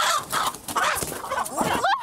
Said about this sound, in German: Ein Huhn zu fangen ist gar nicht so einfach, aber es festzuhalten ist richtig schwierig.